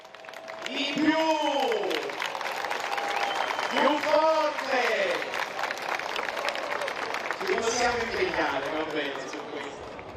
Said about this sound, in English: So the speaker is saying Lampedusa always welcomes everyone, so now we have to get all our welcoming energy out as they chant Pope Leo, Pope Leo, and wave their flags.